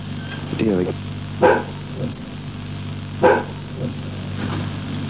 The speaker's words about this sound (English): I should kick the dog out, but he's already out. Bit difficult. He's doing all his barking out the back.